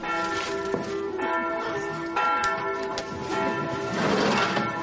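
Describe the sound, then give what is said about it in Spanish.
Church bell rung in a convent church, its repeated strikes blending into a sustained, ringing metallic tone with layered overtones that swells and fades, with no voices. “En la iglesia del convento, Ana toca la campana.”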